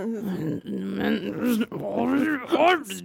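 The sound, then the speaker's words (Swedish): A person imitating an angry growl, slowly building it up while furious in an office. It is a low, rough, sustained voiced rumble lasting about three seconds, broken by brief gaps. “När hon skrev det så var jag så här bara, började sakta men säkert morra inne på kontoret.”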